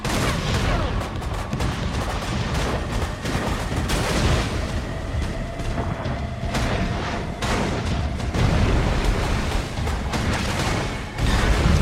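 Heavy weapons fire and artillery form a continuous, loud barrage of overlapping bangs, booms and rapid shots that never lets up.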